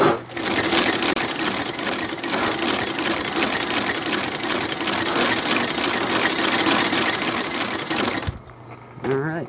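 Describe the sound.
Steady, loud whirring chatter of a sewing machine motor in a shoe repair shop, switched on with the presser foot lifted, running continuously for about eight seconds before cutting off abruptly.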